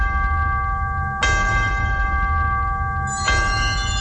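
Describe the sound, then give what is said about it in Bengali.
A bell marks a break in a radio programme. Two strikes land about two seconds apart, and each leaves a sustained, steady ringing tone over a low rumbling background. “বিরতির ঘন্টা শুনলাম আমরা এই মুহূর্তে, 4 মিনিটের ছোট্ট একটা বিরতি নিতে চাই।”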